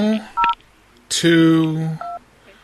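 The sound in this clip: Telephone keypad tones from a room phone: two short dual-tone beeps, one near the start and one near the end, each set apart by voiced talk between them.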